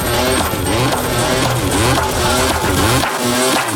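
A KTM motorcycle engine revs hard, a loud, rough, continuous drone with rapid pulsing that holds for the whole stretch without pause.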